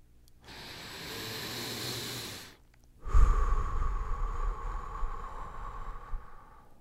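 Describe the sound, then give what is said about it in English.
Diaphragmatic breathing close to a microphone: one slow, airy inhale, a short pause, then a longer, louder, rougher exhale that gradually fades. “Diaphragmatically breathe 1 or 2 times. Let's do that for a moment. Listen to me as I do it into the microphone.”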